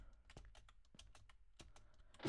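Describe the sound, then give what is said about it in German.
Someone presses the space bar and other keys on a computer keyboard while playing a jump-and-run game, making many quick, faint, irregular clicks and ending with a louder thump. “ich drück sogar die Leertaste! Drück doch sogar Leertaste.”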